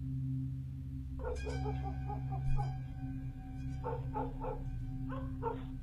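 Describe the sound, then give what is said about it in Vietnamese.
Dogs bark in noisy bursts along a road, making a racket in several short clusters of yapping barks. They are fairly faint and sit over a steady low hum. “lâu lâu lại văng vẳng nghe tiếng chó sủa nhặng cả lên ở dọc đường.”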